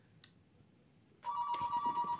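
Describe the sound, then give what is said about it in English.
A telephone rings with an incoming call, a bright electronic warbling tone that starts suddenly after a quiet moment with one faint chirp, then sounds steadily and loudly. “We got to pick up the phone.”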